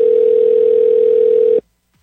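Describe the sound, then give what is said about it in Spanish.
Telephone tone on an outgoing call: one loud, steady, single-pitched tone that holds for about a second and a half, then cuts off abruptly into silence. “marcando aquí el número telefónico correctamente. Está sonando, vamos a ver si nos contesta.”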